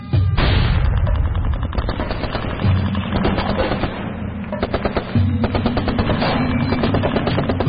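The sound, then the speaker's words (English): Rapid gunfire from an ambush on an army patrol: loud, dense bursts of automatic fire and overlapping shots rattle on almost without pause, with brief dips between volleys and no voices. “As the first shots ring out, Che is face to face with the enemy.”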